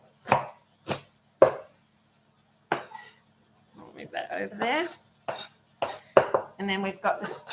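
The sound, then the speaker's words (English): Sharp knife chops on a cutting board as washed bok choy, white parts included, is cut finely. A few separate cuts come with pauses between them, then a person talks while more chops land among the words. “So we'll use some bok choy. I've already washed this. I'll just chop that finely.”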